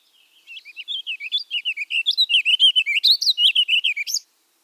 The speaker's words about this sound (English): A warble is notes too fast to count and unique, such as this house finch, or this warbling vireo.